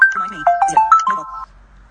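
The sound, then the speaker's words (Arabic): A mobile phone rings with an incoming call, playing a quick melodic run of several bright electronic tones at shifting pitches before stopping abruptly into quiet. “هنا حط اللي اسمهم تليفون موبايل. ها اتصلوا, اتصلوا.”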